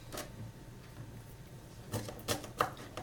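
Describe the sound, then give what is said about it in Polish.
A few faint, sharp knife chops as onion is finely diced for meatballs in mushroom sauce, irregular taps clustering toward the end over a quiet background. “I kroimy cebulę bardzo, bardzo drobniusieńko.”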